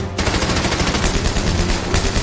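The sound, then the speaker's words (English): Machine gun fire in a dramatized World War II battle in Northern Tuscany, April 1945: loud, rapid, continuous bursts that start abruptly and hammer on without pause. “Second Lieutenant Vernon Baker and his platoon must get past the machine gun fire.”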